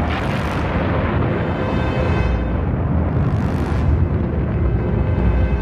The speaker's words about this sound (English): Fire a perigee kick motor!